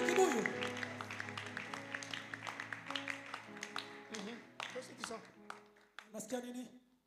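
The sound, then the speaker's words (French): Applause and clapping during a Sunday church service, dense rhythmic claps running through the whole stretch alongside voices and sustained musical tones. “Acclamez pour le Seigneur.”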